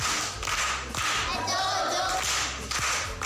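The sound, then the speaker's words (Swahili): Applause for a primary-school pupil who answered correctly in a quiz contest: steady, loud clapping from many hands that fills the whole moment without a break. “Amepata. Makofi kwa mjomba.”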